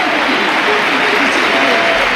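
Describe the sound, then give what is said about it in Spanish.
Some 43,000 fans in the Sánchez Pizjuán stadium rise for a sustained ovation: a dense, unbroken wash of applause and crowd noise, with a voice talking steadily over it. “Aplausos para Lamine. Ovación cerrada de los 43.000 en el Sánchez Pizjuán.”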